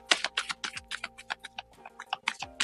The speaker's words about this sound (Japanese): カードをシャッフルいたします。少々お待ちください。